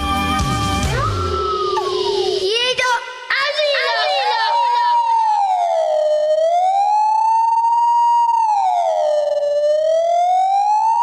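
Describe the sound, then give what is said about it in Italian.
Alarm siren sound effect: a loud, single wailing tone sweeping up and down in slow waves, preceded by a brief jumble of other sounds. “Allarme, allarme! Ma quale allarme?”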